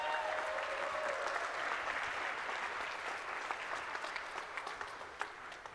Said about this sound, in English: Can we get a round of applause, please?